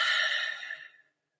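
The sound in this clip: A single deep, airy breath during a breathing exercise with arms held overhead, an even breathy hiss that tapers off to silence after about a second.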